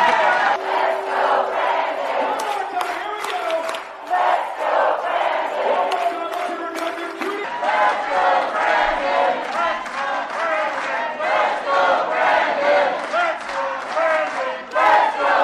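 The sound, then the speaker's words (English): A large crowd chants "Let's go, Brandon" in a loud, rhythmic, repeating cadence, with many voices merging into a continuous roar that holds steady throughout. “You can hear the chants from the crowd.”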